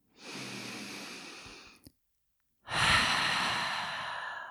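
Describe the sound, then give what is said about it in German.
Two long, deep breaths are taken during a calm breathing exercise, each a soft airy rush of air released through an open mouth, the second louder and fuller, with no talk. “Dann nimm ein paar tiefe Atemzüge hier ein und aus. Gerne mal durch den geöffneten Mund loslassen.”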